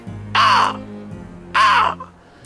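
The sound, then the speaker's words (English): Two loud, harsh caws from a large black bird circling overhead, about a second apart, each call sharp and rasping over a low steady background hum. “as a huge, ginormous black bird seems to spot you from the sky”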